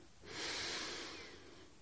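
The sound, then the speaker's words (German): A deep breath drawn in during a relaxation exercise: one broad, airy inhale that swells, then slowly tapers over about two seconds. It is heard alone, with no voices. “Ich atme tief ein”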